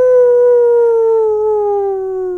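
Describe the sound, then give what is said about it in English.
Wolf howl in a children's bedtime story set in a dark forest: one long, loud, sustained tone that drifts slowly downward in pitch and holds steady to the end. “the wolf howled in the distance”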